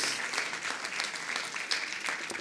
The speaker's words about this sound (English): Come on, give Jesus a big hand.